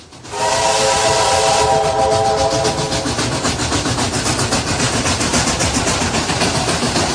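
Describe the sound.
A steam train carrying a passenger from Milwaukee toward Washington sounds its whistle, a loud, steady hooting tone held for about three seconds, followed by rhythmic, hissing chuffs that keep driving on.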